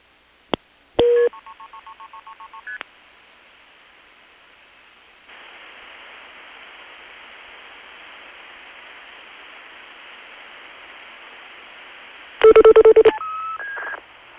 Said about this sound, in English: You may dial another number now.